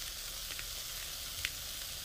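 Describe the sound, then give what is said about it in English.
A beef burger patty sizzling in a frying pan over lowered heat, with a steady, faint crackling hiss broken by a couple of brief louder pops. “Turn your heat down. Turn your heat way down. Pepper.”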